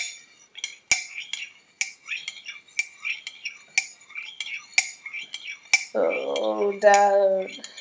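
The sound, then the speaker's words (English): Silver spoon stirring tea in a cup, giving many bright, rhythmic metallic clinks against the china, evenly spaced and fairly loud, with brief swishes between strikes. “Okay, and she's stirring her tea.”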